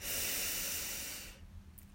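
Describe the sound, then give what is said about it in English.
A single long, airy breath during a guided eyes-closed breathing meditation. It is a soft, steady hiss lasting over a second, then it fades into near silence. The breath is faint and heard alone. “In and out. Ah, breathe in”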